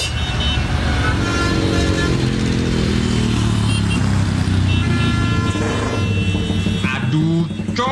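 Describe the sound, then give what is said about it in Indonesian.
Motorcycle with a loud aftermarket open exhaust, running continuously: a steady, dense, booming engine drone that fills the whole clip at high volume, with a brief change in tone near the end. “Suara motor kamu loh, berisik banget sih. Lagian kalau diundang-undang knalpot brong gini dilarang tahu.”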